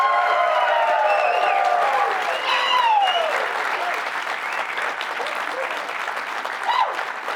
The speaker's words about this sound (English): We are joined by a live studio audience. You just heard them and you just saw them, but let's hear them and see them again, shall we?